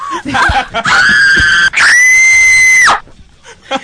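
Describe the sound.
A man's voice imitates another man screaming in fear at a scary part of a movie: two long, loud, high-pitched shrieks, the second longer and dropping in pitch at its end.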